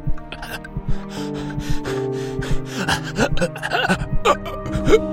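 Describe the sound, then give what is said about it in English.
Gasping for breath in a bout of hyperventilation, performed by a voice: quick, ragged intakes and snorting, catching breaths follow one another unevenly, fairly loud and with no spoken words. “Atticus couldn't breathe. This was it. The dying of the light. Time out. Time over. Time gone. No. Not choking. Hyperventilating. You can breathe. You can breathe.”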